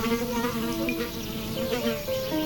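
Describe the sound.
A horsefly buzzes in a continuous nasal drone, its pitch wavering slightly as it hovers, loud and alone with no voices.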